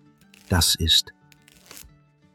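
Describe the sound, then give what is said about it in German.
A knife cuts through a bar of soap with two short, crisp scraping strokes in quick succession, each a loud burst of bright hiss, followed by quieter faint rustling. “Ein Typ, der Seife schneidet. Das Geräusch, wie er durch die Seife gleitet.”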